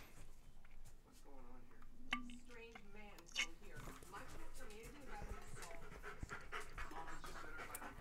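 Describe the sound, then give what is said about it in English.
Heavy, rapid panting from a dog, steady and continuous throughout, heard under people talking. “Some very heavy breathing out of Onyx here, bud.”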